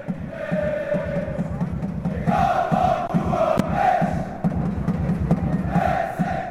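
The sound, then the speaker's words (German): Football fans roar inside the AFG Arena, a stadium holding over 11,000 people, on a Sunday afternoon as St. Gallen face Luzern. The crowd noise is loud and continuous, with sustained chanting that swells in surges throughout. “Es ist laut im Stadion, die Stimmung bei den Luzerner und den St. Galler Fans ist gut, auch wenn es nur 0-0 steht.”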